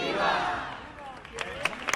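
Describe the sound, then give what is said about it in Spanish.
Crowd cheering for the Virgin's procession in Cádiz: a broad wash of many voices shouting together, easing off midway, then a few sharper individual shouts and cries near the end. “Nosotros nos sumamos a esos vítores salidos del corazón del público.”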